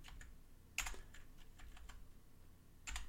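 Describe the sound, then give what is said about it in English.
Typing on a computer keyboard: quick, irregular clicks of keys, faint and steady, with a few sharper, louder keystrokes standing out. “Let me see if I can't type.”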